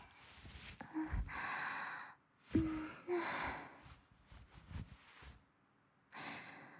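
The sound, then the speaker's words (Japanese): Heavy breathing in and out, a run of loud, airy inhales and exhales with a gasping, sighing texture, each breath a broad hiss separated by short pauses, with no talking. “だったら頑張って呼吸しないとね。吸って吐いて吐いて、”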